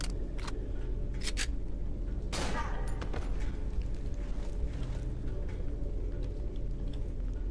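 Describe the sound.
Gunfire in a shooter video game, a few sharp shots scattered through the first three seconds over a steady low rumble, with quieter background noise afterward.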